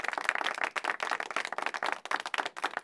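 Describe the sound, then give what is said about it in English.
A video-call app's reaction applause effect plays during an online game night: a quick, dense clatter of many overlapping claps, fairly faint and heard alone. “Dan deserves Zoom React applause”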